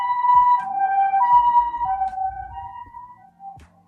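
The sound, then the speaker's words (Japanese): An ambulance siren passing outside, its two tones alternating high and low in a steady wailing cycle, loud at first and then fading toward the end. “あ、救急車来ちゃったね。”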